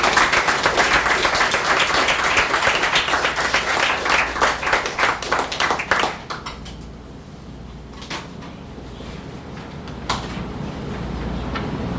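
Audience applause after poetry readings at an evening reading event: dense, loud clapping runs for about six seconds, then thins out to a few scattered claps over a quieter background.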